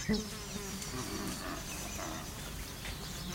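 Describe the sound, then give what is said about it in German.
Many bees buzz in a dense, continuous drone that stays steady and fairly faint from start to finish, with no pauses. “Wo so viele Bienen sind, kann Aristaios nicht weit sein.”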